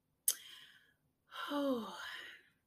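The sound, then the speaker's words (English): A deep breath, a faint click followed by a long, soft, breathy sigh that swells and then fades out, heard alone against silence. “As I take a deep breath”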